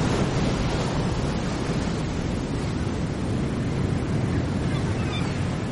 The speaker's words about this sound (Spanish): Las olas del mar golpean un acantilado de piedra grisácea.